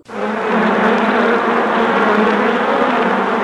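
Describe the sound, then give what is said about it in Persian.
A bee buzzes in a loud, continuous drone. The steady, unbroken hum starts almost at once and holds at an even level to the end, with no other sounds. “زنبوره توی باغ گل کار میکنه، شیره گل تو کندو انبار میکنه، میره میاد پر میزنه”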